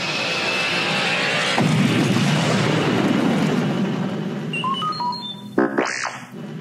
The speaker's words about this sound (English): Chewbacca fired the rockets, and the ship zoomed up out of the swamp.